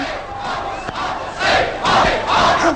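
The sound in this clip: An audience shouts in protest at a theatre show, a loud mass of voices rising in a few surging waves, each swell louder than the last.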